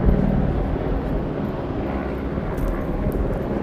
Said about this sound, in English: 1, 2, 3, 4 helicopters above. They are close.